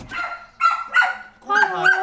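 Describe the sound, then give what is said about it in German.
A dog guarding a house and about 100 square metres of turf lawn near Frankfurt barks a few times in short, tonal bursts, the last one longer. “In der Nähe von Frankfurt bewacht Hund Lotte das Haus und rund 100 Quadratmeter Rasen von Familie Diemerling.”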